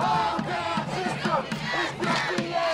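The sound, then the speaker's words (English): A demonstration crowd in Madison protests after a white police officer shot and killed an unarmed African American. Many voices shout and yell together in a continuous, surging mass, with louder outbursts rising above the din. “This is the sound of a demonstration here in Madison, just a couple of miles from our studio.”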